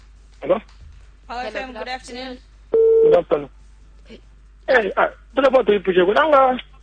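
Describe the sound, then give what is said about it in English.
A single brief, steady telephone tone sounds as a caller's line connects on a radio call-in show. Stretches of talk come before and after the tone. “Oh, we seem to have a caller.”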